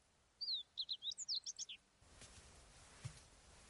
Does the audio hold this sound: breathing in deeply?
no

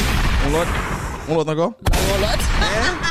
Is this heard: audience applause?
no

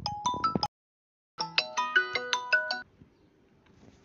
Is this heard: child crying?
no

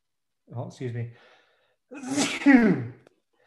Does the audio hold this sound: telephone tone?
no

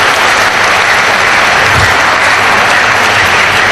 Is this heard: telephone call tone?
no

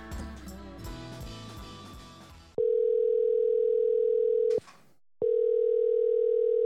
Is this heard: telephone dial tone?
yes

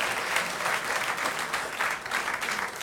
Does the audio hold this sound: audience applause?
yes

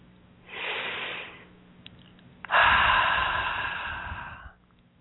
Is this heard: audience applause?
no

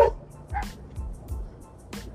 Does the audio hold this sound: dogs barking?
yes

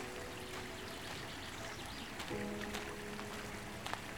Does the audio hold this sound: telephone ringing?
no

